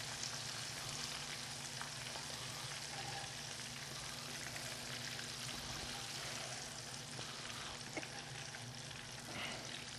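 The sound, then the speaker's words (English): Hot oil sizzles steadily as fried food is shaken out into a saute pan, a dense, even crackling hiss that holds for about ten seconds with no voices. “Let's get them out of here. Just give them a little shake into my saute pan.”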